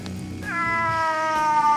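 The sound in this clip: A cat lets out a single long, drawn-out meow that starts sharply and eases slightly downward in pitch, holding for over a second above a low steady hum.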